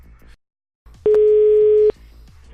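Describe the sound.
A telephone tone after the other party hangs up: one steady, mid-pitched beep lasting just under a second, loud against faint line noise and soft low thumps before and after it.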